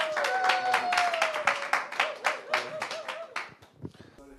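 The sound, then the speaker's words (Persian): An audience at a church service applauding, dense steady clapping that thins out and fades over the last second, with a voice speaking over the start. “حالا براش دست بزنیم.”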